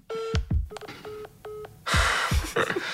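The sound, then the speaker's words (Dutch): Telephone keypad tones as a number is dialed for a call: several short, steady electronic beeps with clicks between them, then a burst of noisy rustle. “Eerst bellen we Roger Thiel op. Maar daar gebeurt vrijwel niets.”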